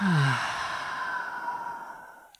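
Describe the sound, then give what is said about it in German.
A long, audible breath out through the mouth, like a deep sigh, follows a deep breath in during a calming exercise. It starts strong and breathy, then slowly fades over a couple of seconds, with no talking. “Atme einmal tief ein und atme durch den Mund aus.”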